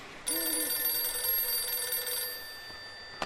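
Telephone ringing: a steady, high-pitched electronic ring tone holds for about two seconds and then fades out, followed by a brief click.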